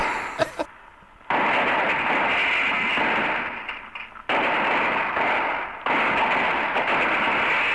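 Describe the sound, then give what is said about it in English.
Guns shooting: a few sharp cracks at the start, then long, loud stretches of dense, rapid firing that rise and fade in bursts, with no voices. “here's some shooting guns again. You like those right here.”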